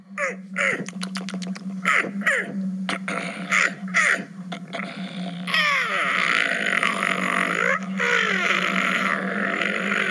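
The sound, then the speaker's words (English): Zombie-style groans from a Halloween sound effect: many raspy, croaking grunts and sharp gasps, fairly loud and continuous, thickening into a denser rasping texture partway through. “I don't know if those are sound effects or evil creatures. Zombies. They're zombies.”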